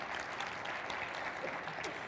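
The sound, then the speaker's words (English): A church audience claps during a sermon: a dense, even wash of many hands clapping, continuous from start to end and fairly soft. “Could you give God a clap offering today?”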